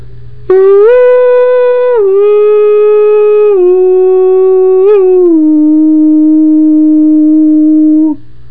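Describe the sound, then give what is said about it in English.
A voice imitates a yodel-like call that people in the piney woods once used to call and answer each other. It is one long, loud, sustained tone that holds steady, then steps down in pitch a few times before stopping abruptly. “they would call and answer each other. Now, it was something like a yodel, and it sounded a little bit like this.”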